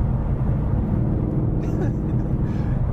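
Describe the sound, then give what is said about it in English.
Steady, low engine and road rumble from inside a 2017 Mustang GT cruising on light throttle, a dense, unbroken drone that stays even throughout. “So what are we driving in right now? We're driving in my new baby, my 2017 Mustang, my GT.”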